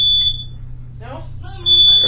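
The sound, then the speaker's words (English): A smoke detector alarm going off with a shrill, steady high-pitched tone at the start and again at the end, with a person talking in the gap over a low hum. “And that would be the smoke detector, folks.”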